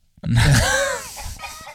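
A rooster crow sound effect, heard as a single strained, wavering crow that rises and then tails off, short and fairly loud.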